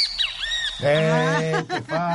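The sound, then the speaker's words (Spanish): A great kiskadee calling: a few high, arching whistled notes, then a louder, harsh call rich in overtones, broken into short segments. “¡Este es el venteveo!”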